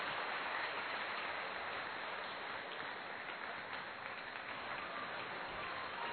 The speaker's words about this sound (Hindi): बहुत जोरदार ध्वनि करतल ध्वनि से स्वागत करेंगे आदरणीय मुन्नी दीदी का।